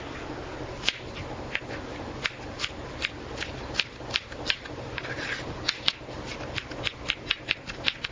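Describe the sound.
A knife finely chopping an onion makes many sharp, irregularly spaced knocks over a steady scraping rustle. No one talks.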